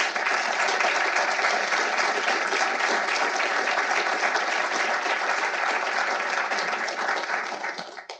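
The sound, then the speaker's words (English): Audience applauding as two speakers are welcomed to the stage for a discussion of Supreme Court cases: dense, sustained clapping that stays loud and even for about eight seconds before tapering off at the end. “Please give me a hand as I welcome Paul and Jeff to the stage.”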